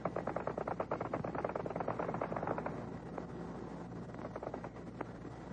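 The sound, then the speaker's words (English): Spandau machine gun fire from WWII aircraft flying at 2,000 feet, heard as a fast, continuous rattle of shots over a broad roar. The rattle is louder in the first half, then carries on slightly quieter. “The sound of anti-aircraft fire. That's the sound of a Spandau machine gun being fired, in case you're interested.”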